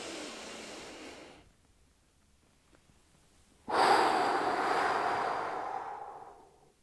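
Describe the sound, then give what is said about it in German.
Deep breathing during a relaxation exercise: a breath of about a second and a half, a silent hold of roughly two seconds, then a longer, louder breath that slowly fades away. No one speaks. “Also mach auch Atemübungen, atme tief ein, halte kurz 4-5 Sekunden den Atem, atme richtig in den Brustkorb und dann einfach ausatmen.”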